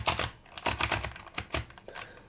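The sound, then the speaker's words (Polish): Ratcheting clicks from the round character drum of a handheld label maker as it is turned to set the letter to print on the tape, a dense, uneven run of crisp mechanical ticks. “Ona służy do ustawiania litery czy znaku, który chcemy napisać na taśmie. Ten bęben się kręci”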